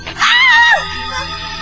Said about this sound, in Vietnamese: cô hét lên sợ hãi khi thấy khuôn mặt ba cô máu me bê bết